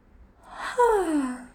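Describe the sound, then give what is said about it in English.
A single deep breath drawn in during a guided affirmation exercise: a soft, breathy rush of air that turns into a clear, falling whistly tone as the inhale ends. No talk over it. “Okay, so take a deep breath.”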